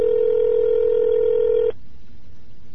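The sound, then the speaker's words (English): A telephone keypad tone sounds while someone dials an international number to the Philippines: one steady, loud, mid-pitched tone that holds for nearly two seconds, then cuts off abruptly into quiet background hiss. “I don't know if I'm dialing the right friggin' number. What am I calling the Philippines?”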